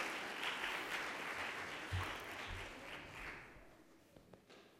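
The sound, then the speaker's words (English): An audience applauds to welcome a woman speaker to a biblical studies lecture. Faint, even clapping from many hands continues for several seconds and slowly fades. “Let's give her a hand as she comes with our introduction.”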